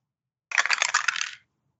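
Dice rattling and clattering during a tabletop role-playing game's fighting brawl roll: a single dense burst of bright clicks lasting just under a second, ending abruptly, with no voices.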